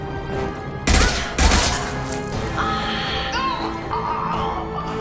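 Gunfire from a shotgun in a video game shooting gallery: two loud, sharp blasts close together near the start, followed by quieter, continuous game sounds.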